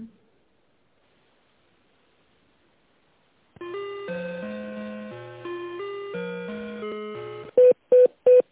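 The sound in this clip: Electronic tones mark a telephone call being connected: a short sequence of stepped pitches plays, then three brief, sharp beeps sound at one steady pitch.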